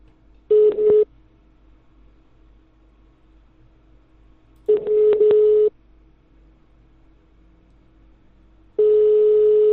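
Ringback tone on an outgoing phone call: three steady low beeps separated by long pauses, the last running to the end, over faint line hiss.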